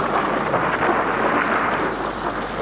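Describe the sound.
Steady rain falls as a dense, even hiss with no pauses, holding at the same level from start to finish. No distinct thunder rumble stands out from the wash of rain.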